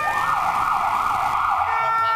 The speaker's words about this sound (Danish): Og så trykker du på dem der. Så er det hornene. Så er der horn.